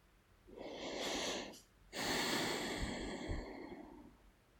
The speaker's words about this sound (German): Und wenn du soweit bist, zwei, drei tiefe Atemzüge zu nehmen.